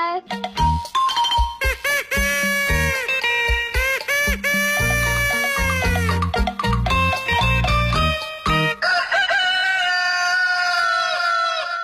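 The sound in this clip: A rooster crows in the early morning, its rising and falling call mixed into a busy musical jingle with bright, bell-like chimes and punchy beats.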